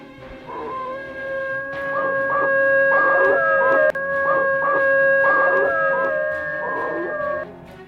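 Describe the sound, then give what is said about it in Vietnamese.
Long, wavering wolf howls near an old forest, howling at the moon, rising out of quiet and holding loud, sustained tones for about seven seconds with several swelling pulses along the way. “khi vô tình có nghe tiếng chó sói hú trăng cũng chẳng có gì là lạ. Ấy thế nhưng hơn một tháng nay, tiếng chó hú này làm cho mọi người trong ngôi làng nhỏ này ăn không ngon”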